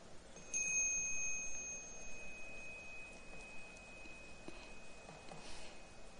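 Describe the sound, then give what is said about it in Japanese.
A small meditation gong is struck once, giving a faint, thin, high ringing tone that lingers for a few seconds before fading into quiet background hiss. “小さなベルを持ってきました。ですから、こういうベルなんです。”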